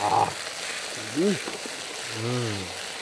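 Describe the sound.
Steady sizzle of salted potatoes frying in a pan, a continuous hiss with a few brief voice sounds over it.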